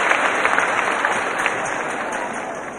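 Applause from a church audience during a Sunday service: a dense, steady patter of many hands clapping at an even level throughout, with no clear break or peak.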